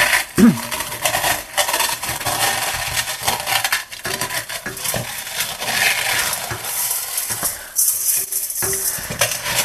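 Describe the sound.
Crushed crumbs fall into a bowl as they are crumbled over it by hand, making a continuous dry rustling crackle with a few sharper ticks scattered through it.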